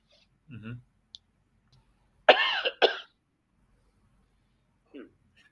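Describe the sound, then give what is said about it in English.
Coughing from someone with something badly stuck in the throat: two harsh coughs in quick succession, preceded by a low throaty grunt and a small click, then a short faint vocal sound after a pause. “Hang on. Something badly stuck in my throat.”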